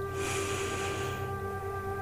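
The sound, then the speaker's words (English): A slow, deep breath drawn in during a relaxation exercise, a soft airy hiss that swells and fades over about a second above a steady faint hum. “Let's take some deep breaths to relax even further. Let's breathe in”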